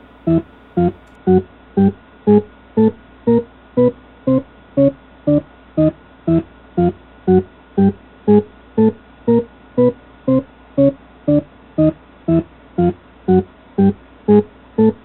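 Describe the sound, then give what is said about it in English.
A discrete Shepard scale made of Shepard tones: many evenly spaced synthetic notes, each a stack of layered pitches, pulse in a steady rhythm at an even loudness. “This is a Shepard scale, or a discrete Shepard scale, if you're into accuracy. It's made up of, you guessed it, Shepard tones.”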